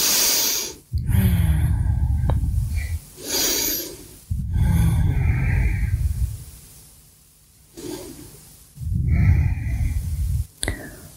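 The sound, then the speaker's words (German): Three deep breaths during a yoga balance practice: each is a long, loud, airy breath with a hissy edge, separated by short quiet pauses. “drei tiefe Atemzüge.”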